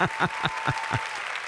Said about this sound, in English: I'll keep the applause going because we have some great guests lined up for you today.